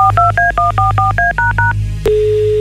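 A telephone number is dialled as a quick, evenly spaced run of loud dual-tone keypad beeps. One sharp click follows, then a single steady, lower tone.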